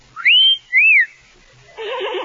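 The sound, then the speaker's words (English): A person whistling two clear, loud notes, the first sweeping upward and held, the second a quick arching tone, followed by a short burst of voice. “I'll think I'll whistle again.”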